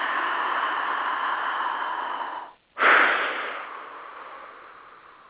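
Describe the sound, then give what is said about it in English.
A deep, slow breath taken together with others: a long airy rush of air, a brief break of silence, then a second, stronger breath that tapers off gradually. “Let's do it together. Big breath.”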